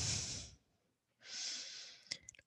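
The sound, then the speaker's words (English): Deep breathing during a yoga forward bow: two long, airy breaths separated by a brief near-silence, followed by a few short, sharp snort-like puffs at the end. “breath in, and then exhale, bow forward”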